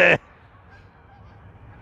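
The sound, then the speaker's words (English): A Canada goose honks once while flying at night, a short, loud call that cuts off abruptly and leaves only a faint, low background rumble. “I apologize for these stupid Canadian geese.”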